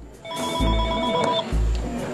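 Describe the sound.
A telephone rings while carried on a woman's chest in a Latin-food restaurant, giving steady, sustained electronic tones with a low thump at the start and another midway.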